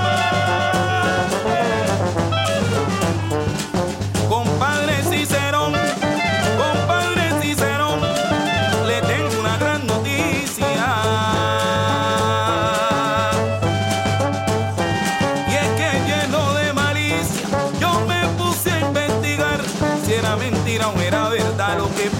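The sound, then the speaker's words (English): Traditional Chocoano chirimía music played on clarinet, saxophones and bombardino. The full band plays loudly and continuously, with a driving, repeating low bass figure under busy, overlapping melodic lines, and no voices. “what you hear is a traditional Chocoano sound of what's called the chirimía. Chirimía essentially refers to the clarinet and sometimes saxophones and the bombardino”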